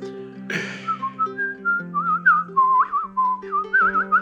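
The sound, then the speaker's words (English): High-pitched whistling from a tickle whistle, playing a lively, warbling tune of bending, trilling notes over steady lower sustained tones, with a brief noisy burst near the start. “Nothing like the sound of a tickle whistle. That high-pitched sound gives the ear drama tickle.”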